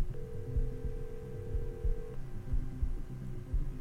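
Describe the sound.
Ringback tone of an unanswered telephone call: a single faint, steady beep lasting about two seconds, over soft, irregular low thumps in the background.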